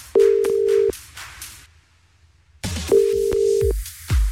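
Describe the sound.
Ringback tones from a telephone call that a radio host dials to a contest winner: two long, steady ringing tones separated by a stretch of near silence, the second cutting off before a brief low thump.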